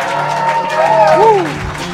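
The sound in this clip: A live audience cheers and applauds at the start of a show in Los Angeles, a dense, loud wash of clapping with whoops and shouted voices rising over it.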